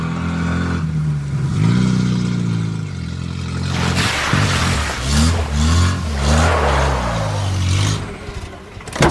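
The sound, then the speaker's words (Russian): A white minibus speeds along a road with its headlights on, splashing through puddles. Its loud engine revs and eases repeatedly, the tone swinging up and down, with bursts of hissing noise in the second half. “С включенными фарами по дороге, разбрызгивая лужи, мчится автомобиль, белый микроавтобус.”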